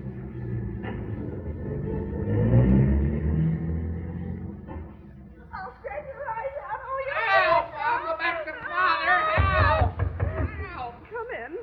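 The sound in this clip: Old radio-drama sound effect of a taxi car driving off: a low engine rumble swells and fades, followed by people talking.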